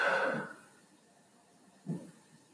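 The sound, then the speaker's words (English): Breathing in and out: a soft, breathy rush of air at the start, then a second, shorter breath after a quiet pause. Both are faint and heard alone. “Breathe in, breathe out.”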